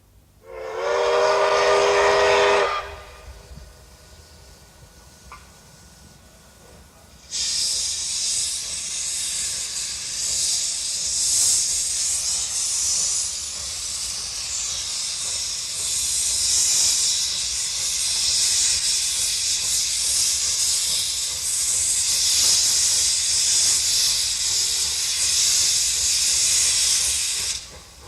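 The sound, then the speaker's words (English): A Japanese steam locomotive, played back on an Akai tape recorder. A loud whistle blast of about two seconds opens, then after a quieter lull a long, loud roar of hissing steam continues to the end, with no voices. “An earth-shaking, dynamic sound. That's the sound of a Japanese locomotive.”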